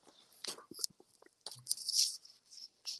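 Crunchy seaweed snacks being bitten and chewed up close for ASMR: quiet, crisp crunches and moist chewing in short bursts, separated by brief pauses.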